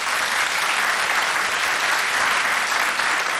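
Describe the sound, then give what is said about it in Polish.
A studio audience applauds at a music awards gala: dense, even clapping that holds steady from start to end without a break. “Witamy Państwa zgromadzonych w studiu. Oklaski do Agnieszki.”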